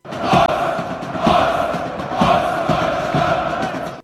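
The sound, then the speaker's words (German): A stadium crowd chants in unison. Loud rhythmic surges of many voices come roughly once a second over a steady roar of cheering. “es ist nämlich eine Aufnahme aus einem Stadion”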